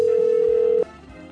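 A telephone rings on an outgoing call: one steady, mid-pitched ringback tone sounds loud and unbroken, then cuts off abruptly, leaving a faint low background hum.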